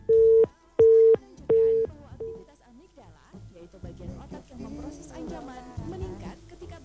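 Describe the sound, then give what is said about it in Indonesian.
A busy tone on a disconnected telephone line: three steady, mid-pitched beeps in an even rhythm, followed by people talking. “terputus kembali ya line teleponnya.”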